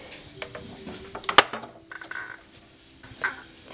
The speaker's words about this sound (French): je suis en train de passer un fil entre l'assiette et la girelle, qui est la partie métallique du tour, pour décoller l'assiette pour qu'elle puisse sécher et se rétracter correctement.